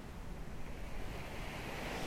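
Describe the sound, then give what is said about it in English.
Ocean waves wash in a continuous broad rushing roar that holds steady without distinct breaks, heard alone with no voices. “focusing on the sounds you hear. The sound of my voice, the sound of the ocean,”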